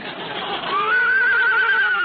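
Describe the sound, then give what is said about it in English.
A horse whinnies at the starting gate of a horse race, a single long, high neigh with a wavering, trembling pitch, heard loud over a steady background hiss. “The horses are all in the starting gate. Steady. Steady now.”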